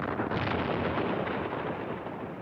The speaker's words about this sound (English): the U.S. Geological Survey in Flagstaff even blasted 426 craters into a cinder field. The USGS created a man-made crater field to simulate what it would be like on the moon. Fire!